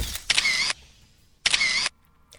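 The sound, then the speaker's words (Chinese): Camera shutters clicking as photos are taken after a stage performance: a few crisp, bright bursts of mechanical clatter separated by short pauses. “你好，演出结束了，请不要再拍照了好吗？”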